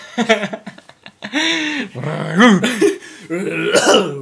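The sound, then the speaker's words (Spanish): A person imitates a barking, dog-like cough with a string of rough, throaty voiced bursts of uneven length and pitch, loud and close, separated by brief gaps. “Oye, tenís tos de perro y en verdad ni siquiera suena como un perro.”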